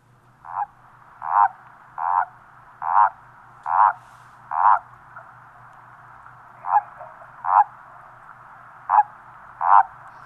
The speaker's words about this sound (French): c'est un cri assez bref et grinçant. Et c'est le cri de contact du crapaud commun.